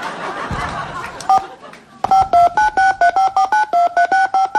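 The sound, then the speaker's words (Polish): Telephone keypad DTMF tones as a 14-digit PIN is entered: a rapid, even run of many short, loud beeps at varying pitches, preceded by a brief noisy passage and a single tone. “Aby skorzystać z serwisu samoobsługowego, wprowadź swój poufny 14-cyfrowy numer PIN.”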